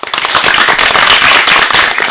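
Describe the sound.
Loud, dense clapping from an audience at a children's programme, a rapid crackling burst of many hands that stays strong and even throughout.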